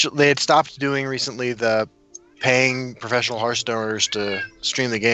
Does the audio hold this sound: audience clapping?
no

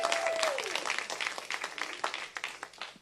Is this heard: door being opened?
no

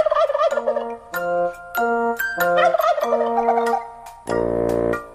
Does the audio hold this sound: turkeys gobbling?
yes

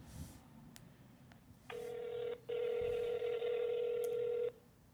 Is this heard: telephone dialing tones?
yes

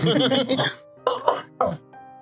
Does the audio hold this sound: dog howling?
no

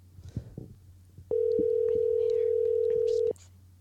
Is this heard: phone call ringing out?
yes

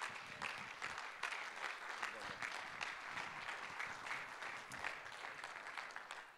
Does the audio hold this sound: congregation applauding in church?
yes

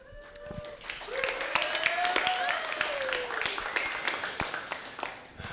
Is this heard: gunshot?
no

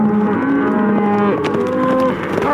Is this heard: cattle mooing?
yes

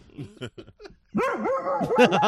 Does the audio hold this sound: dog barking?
yes

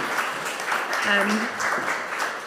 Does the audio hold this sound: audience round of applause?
yes

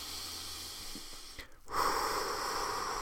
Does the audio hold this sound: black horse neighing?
no

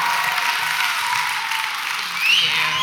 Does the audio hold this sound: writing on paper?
no

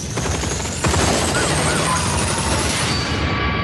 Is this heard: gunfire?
yes

